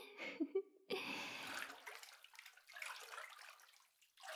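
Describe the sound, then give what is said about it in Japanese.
Water pours and splashes as someone's back is rinsed during a bath. The sound is faint and comes in irregular bursts of trickling and gushing, with no talk. “それじゃあ次はお背中を流ししますね。”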